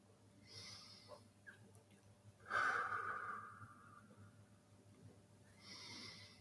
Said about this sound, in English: Take a few breaths in and out. Inhale and exhale.